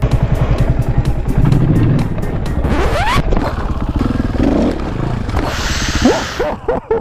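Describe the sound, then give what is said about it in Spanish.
An enduro motorcycle engine rumbles steadily while the rider pushes the suspension down and gives short throttle blips without using the clutch. The engine note rises sharply a few times over the loud, continuous idle. “Bueno, pues ahora quiere una moto de enduro. Hundo las suspensiones con todo el cuerpo y doy un golpito de gas. Nada de embrague.”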